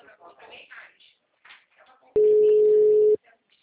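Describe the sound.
A telephone line tone after a dropped call: one loud, steady, mid-pitched tone that holds for about a second, then stops abruptly. Brief talk comes before and after it.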